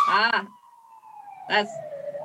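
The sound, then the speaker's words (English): An emergency vehicle siren wails outside as a single steady tone that slowly dips and then rises again, with two short bursts of talk over it. “They got some sirens out there, right?”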